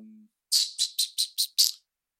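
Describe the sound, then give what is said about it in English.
A person imitates a bird with six quick, high-pitched chirps in a steady rhythm, each short and sharp and separated by brief silences, after a low tone fades out. “You just made a chirping sound”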